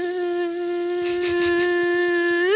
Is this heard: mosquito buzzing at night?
yes